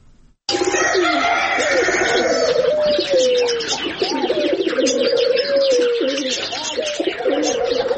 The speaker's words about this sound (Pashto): د اورزګان ولایت مرکز ترینکوټ شاراډون په سر مرغاب سیمه کې د دنګو غرونو په لمنه او د شنو باغونو په میانس کې د لسګونه ډولو مرغانو دا ژوبڼ